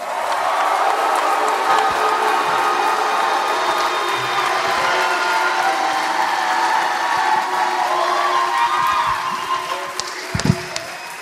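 Audience cheering and applause greet co-host June Diane Raphael as she comes onstage at a live comedy show: a loud, sustained wash of clapping and whoops that holds steady for most of the stretch, then thins out near the end.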